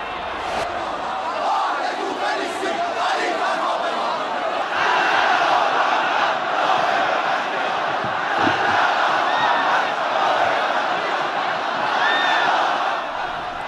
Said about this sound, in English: Islamic Revolution leader Ayatollah Ali Khamenei has arrived in the holy city of Qom amid warm welcome of local residents and pilgrims.